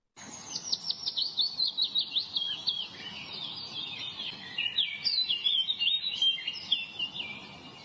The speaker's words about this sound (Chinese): 这是黄鹂鸟的叫声